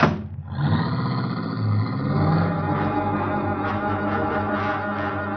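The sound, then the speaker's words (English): A car engine hums steadily after a brief opening burst, its low drone carrying rich, even harmonics as the vehicle drives away, with no voices over it. “It was a car. I ran out like a madman and flagged it down.”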